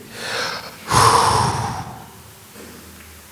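A deep breath in taken before reading scripture aloud in a sermon. A softer breath comes first, then a loud, rushing inhale that lasts about a second and fades off. There is no talking.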